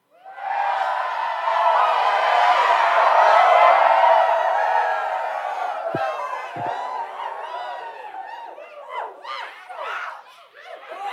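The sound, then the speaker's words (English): A studio audience cheering and whooping in a loud, dense burst that holds for a few seconds, then thins into scattered chatter, chuckles and calls. “Our lovely studio audience is always happy to see us.”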